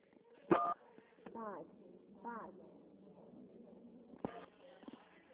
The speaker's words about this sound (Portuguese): a ligação, acho que a senhora ficou apertando o número e não consegui ouvir nada, só consegui ouvir 593